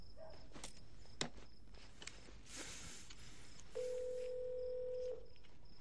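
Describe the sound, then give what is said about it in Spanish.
Telephone keypad buttons pressed with the tip of a stick: a couple of faint taps, then one steady electronic tone held for just over a second, over a low background hiss. “Pone el teléfono junto a él y pulsa el teclado con la punta del palo.”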